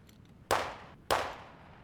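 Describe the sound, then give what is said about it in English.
Two sharp gunshots crack out about half a second apart, each a sudden bang with a short fading tail, fairly faint overall, with no voices. “Oh my god, were those shots? Sounds like.”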